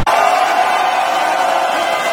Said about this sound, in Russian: И вот лишь на 14-й раз, наконец-то, сверхтяжелый корабль удалось вывести на орбиту. Центр управления в этот момент взорвался аплодисментами.